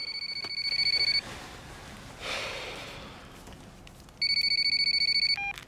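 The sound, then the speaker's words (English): A phone rings and wakes a sleeping man: two bursts of rapid, high electronic trilling separated by a quiet pause, with a soft breathy noise in between and no talking. “His phone ringing wakes Sam up.”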